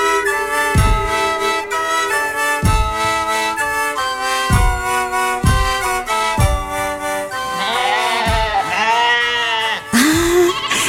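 Sheep bleat over and over, many wavering, nasal calls at a steady pace. Some calls overlap toward the end and rise into higher, quavering cries.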